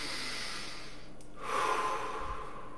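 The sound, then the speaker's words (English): Slow, deep breathing during a calm relaxation and prayer exercise: soft, airy breath noise that stays quiet throughout and swells gently in the second half, with no talking. “The next part is to simply breathe.”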